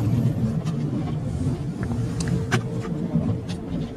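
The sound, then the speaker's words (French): Low, steady engine and road rumble from police cars passing one after another along a road, with a few brief brighter swishes rising above the continuous drone. “Par la suite, les voitures de police se sont succédées sur la route, comme en témoignent les images suivantes.”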